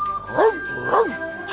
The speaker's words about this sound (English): And afterward, you can teach me to slide on the ice. Oh, yes, sir. And the doggy, too.